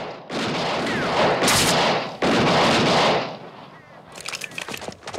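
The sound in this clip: Gunfire as a man fires his guns to rouse a group of sleeping men: loud, dense volleys of shots in two long roaring stretches, then lighter scattered cracks trailing off.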